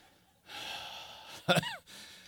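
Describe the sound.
A deep breath drawn in: a long, airy inhale of about a second and a half. It ends in a brief, louder gasping catch. No voices are heard.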